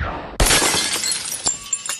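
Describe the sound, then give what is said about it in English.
A vase shatters with a sudden loud crash of breaking glass, followed by a scattered tinkle of falling shards and a few smaller clinks as the pieces settle. “He flicks the wand, shattering a vase.”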